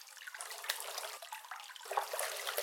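Hot bath water splashing and sloshing: a faint, continuous watery wash broken by small splashes, with no voices.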